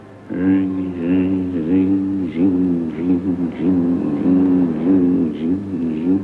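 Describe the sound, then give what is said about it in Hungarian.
A spinning wheel turns its spindle with a steady, monotonous low whirring hum that pulses in a regular repeating rhythm throughout. “Pergeti a kerék az orsót, és ennek van egy monoton hangja. Egy ilyen zsongító.”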